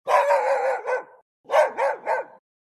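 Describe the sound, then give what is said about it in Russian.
A dog barks nearby beside a field: one long, rough yelp, then three quick, sharp barks in a row, fairly loud and with no talk over them. “Собака! Она лает где-то совсем рядом.”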